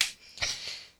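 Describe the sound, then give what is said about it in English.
A couple of sharp, uneven hand claps, offered as motivational clapping, land fairly faintly with a breathy rush around them and no voices. “Motivational clapping.”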